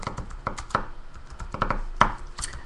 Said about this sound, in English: I'll take this link and I'll throw it up on Twitter right now for my peepos. When I'm really high, I can't type that good if I think about it.